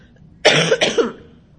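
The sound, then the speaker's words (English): A single loud, harsh cough bursts out abruptly and lasts about half a second, broken into a couple of rough pulses, then stops, leaving near silence. “And so, I like have this awful cough, which is just wonderful.”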